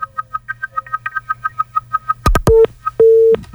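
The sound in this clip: A busy tone follows a phone call that has been cut off. Rapid, evenly spaced beeps repeat steadily, then a few loud clicks break in, and two longer steady lower tones follow.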